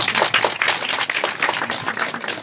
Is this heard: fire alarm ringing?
no